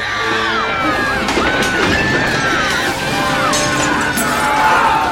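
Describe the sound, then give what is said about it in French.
Plates, cutlery, tables and benches crash and shatter as a group of rioting boys in a children's penal colony smash and overturn everything. The din is dense and continuous, with a crowd shouting and cheering throughout. “Tout vole. Les assiettes, les fourchettes, les tables, les bancs sont renversés. Ils cassent tout.”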